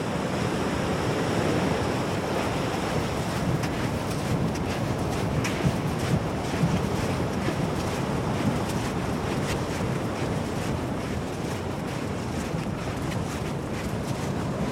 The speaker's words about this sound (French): Ah, la mer, elle monte là, oui.